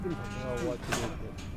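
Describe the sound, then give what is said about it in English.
Cows in a herd moo, a low, drawn-out bellow with a wavering tone over a rough, noisy background, followed by fainter calls. “Yeah, here's the cows that we worked yesterday.”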